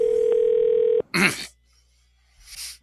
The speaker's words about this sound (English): I'm going to dial that number back.